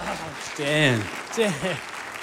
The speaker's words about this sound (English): Please put your hands together. Welcome, Pastor Justin. Come on over.